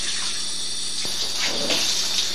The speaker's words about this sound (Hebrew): מים.